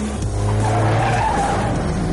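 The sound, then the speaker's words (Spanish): Tires skid and squeal as a white Porsche brakes hard to a stop at a traffic light, a loud, continuous screech with a steady high tone over a rough rumble. “El Porsche blanco de Mikkel se detiene en un semáforo.”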